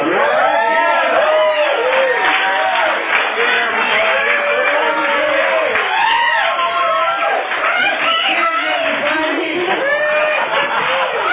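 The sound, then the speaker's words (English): Audience cheering, whooping and applauding after a speaker is introduced at a Valley Group evening gathering; the noise is loud and steady, with shouts running through the whole stretch. “Please offer a warm Valley Group welcome to Kim.”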